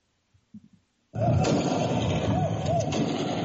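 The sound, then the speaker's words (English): Police gunfire at a street protest against police brutality in Lagos, Nigeria: a few faint knocks, then a sudden loud, dense roar of noise that holds to the end, with a couple of sharper cracks inside it. “Police open fire as protesters continue to demonstrate against police brutality in Nigeria.”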